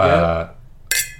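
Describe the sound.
A glass clink from a toast with grandfather tawny port: one bright, ringing chime rises after a voice fades, short and fairly loud, with a brief shimmer.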